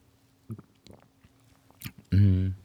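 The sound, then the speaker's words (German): Sipping of a latte macchiato made with 0.3% low-fat milk: a few faint, brief mouth and slurp sounds, then a short, loud voiced sound at the end. “Übrigens schmeckt Latte Macchiato auch mit 0,3%iger Milch. Die habe ich nämlich gerade.”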